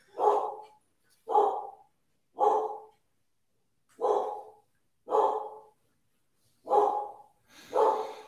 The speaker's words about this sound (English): Now people can hear my dogs in the background.